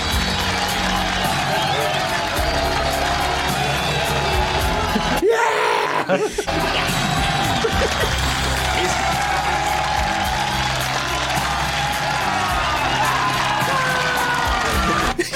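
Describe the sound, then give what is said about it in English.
Looped, dubbed-in crowd cheering: continuous loud yelling and whooping from a large crowd, steady in level with one brief break partway through before the roar resumes. “It's almost like a loop of hooray! I was like, that sound is dubbed in of a crowd”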